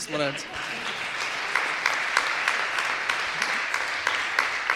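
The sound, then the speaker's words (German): Sustained audience applause with dense, even clapping throughout, a steady crackling texture at moderate loudness, after a song performed in a Swabian dialect music show. “Das ist trotzdem Applaus wert.”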